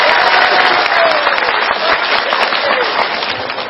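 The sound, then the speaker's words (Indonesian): Loud, steady applause from an audience at a religious gathering as the governor is invited up to give remarks; dense, continuous clapping fills the whole clip without a break. “tepuk tangan kagem Pak Ganjar”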